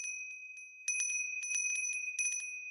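A small bell rings in many rapid, bright, high-pitched strikes grouped in quick bursts, with a clear sustained tone ringing on between them and no voices.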